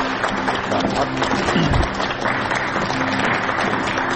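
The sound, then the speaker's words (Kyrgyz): Audience applause sends off a departing presenter, a dense, even clatter of many hands clapping throughout, with a faint voice briefly audible beneath. “Буга чейин Азаттыкты алып барып жүргөн биздин алып баруучубузду кол чаап узаттагандар.”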